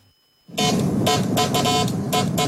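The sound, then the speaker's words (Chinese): Electronic telegraph beeping comes from a restored 1970s telegraph control box, once nearly scrapped. After a brief silence, a loud buzzing tone starts and pulses in a rapid rhythmic run of on-off beeps. “一大早，杨建明家的阳台上传来了电报的滴滴声。这是一台70年代的发报控制箱。”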